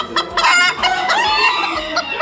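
Roosters crowing at a rooster-crowing contest: several loud, harsh crows overlap with clucking in a continuous, busy stretch, with no voices.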